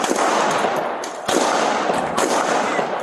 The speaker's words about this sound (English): shots taken, suspect down